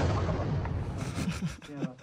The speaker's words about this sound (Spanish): Eso fue una explosión.